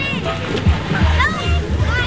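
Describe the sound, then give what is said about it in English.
Children splash and play in an outdoor public swimming pool during a summer heat wave, with steady water splashing and sloshing under high, excited children's voices and shrieks throughout. “At Cordelia Pool this afternoon, kids and families were splashing in the cool water”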